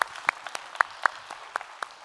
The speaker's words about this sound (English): So if you would, put your hands together, welcome them into our time of study here this morning.